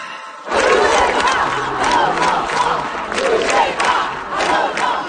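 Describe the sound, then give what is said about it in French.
Protesters at street demonstrations in France shout and chant as a large crowd, a loud, dense roar of many voices that swells and dips in waves, continuous from just after the start to the end. “Alors, ce que vous entendez, ce sont les manifestations des derniers jours en France.”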